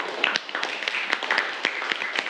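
Classroom students clapping for a classmate, a loose, uneven patter of separate sharp claps at moderate loudness, scattered and irregular rather than a full unified round of applause.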